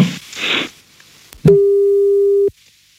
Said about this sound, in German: das war eine Überraschung, als er sie angerufen hat.